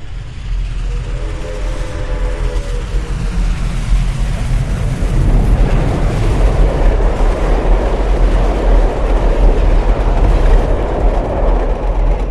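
A train passes through a station in a stereo recording, its deep rolling rumble building from moderate to a loud, sustained roar. Gritty wheel-and-rail noise churns throughout, and faint tonal hums sound near the start.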